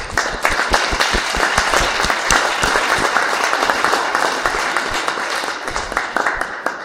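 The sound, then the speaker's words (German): A crowd cheers and applauds in an audio drama. Dense clapping and jubilant noise stay loud and continuous from start to finish. “Total klasse, besonders auch der Jubel, richtig authentisch.”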